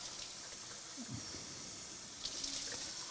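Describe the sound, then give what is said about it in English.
Tap water runs steadily for a neti pot nasal rinse, a continuous bright hiss and splash that holds at an even level for the whole clip. “I was going to neti pot. This should be interesting with my microphones. Hopefully I'll not get it wet.”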